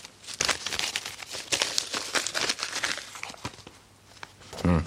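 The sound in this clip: Paper letters being taken out of a pocket and handled, with a run of soft crinkling and rustling bursts and a brief voice near the end.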